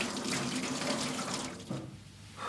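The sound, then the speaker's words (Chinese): Water runs from a tap while dishes are washed: a steady, hissing stream of fairly even loudness that goes on throughout and eases off slightly near the end. “洗碗呢？”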